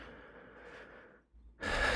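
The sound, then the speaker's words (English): A slow, deep breath drawn in as a soft, airy rush that fades into a brief silence, followed by a louder, breathy release starting at the end. “And just take a nice, easy, deep breath.”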